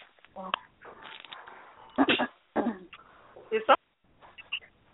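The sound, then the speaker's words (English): Throat clearing from someone in a group listening to a talk: a few harsh, raspy bursts of uneven loudness, with short vocal sounds around them. “They were just clearing their throat. Okay, they were clearing their throat.”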